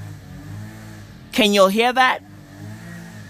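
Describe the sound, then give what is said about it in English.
Lawnmower engine running as a garden maintenance crew cuts the lawn, a low, steady mechanical drone that continues through the whole clip, with a man speaking briefly over it. “That's the sound of a fucking lawnmower.”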